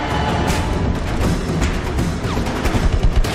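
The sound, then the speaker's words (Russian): Battle noise of exploding bombs and flying artillery shells during a Utah Beach landing scene in a film, a dense, continuous roar of blasts and rapid gunfire. “Рвутся бомбы. Летят артиллерийские снаряды.”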